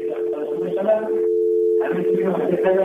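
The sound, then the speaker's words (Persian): Telephone dial tone on a radio phone-in line after a caller disconnects, a steady low hum running through the whole clip while a voice talks over it. “شنونده قطع شد”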